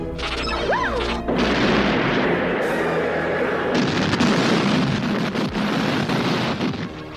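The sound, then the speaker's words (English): Atari 2600 video game explosions and rocket fire: a short swooping electronic tone, then a long, loud, harsh noisy roar with a few heavier bursts. “Oh, that's a Atari 2600 clip. That particular thing's in a ton of movies.”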